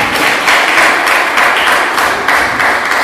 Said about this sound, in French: Quelqu'un peut acclamer la parole de Dieu?